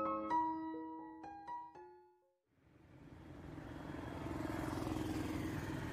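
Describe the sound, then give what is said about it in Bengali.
Traffic on a highway past a busy suburban market at dusk: after a few sustained tonal notes fade out, a low, faint rush of passing vehicles swells in and holds as a steady, grainy roar. “পাশ দিয়ে চলে যাওয়া হাইওয়েতে আসা যাওয়া গাড়ির শব্দে আর সন্ধ্যা নামার মুখে ব্যস্ত শহরতলির মোটামুটি জনসমারোহে গম গম করা বাজারের দিকে”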